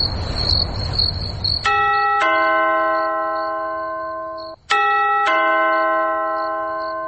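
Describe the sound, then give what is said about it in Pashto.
A front-door doorbell rings late at night, sounding two ding-dong chimes, each made of two bright, bell-like notes that ring on and slowly fade, after a stretch of soft hiss. “د دروازې زنګ ووهل شو، ته وس وګوره چې څوک دي.”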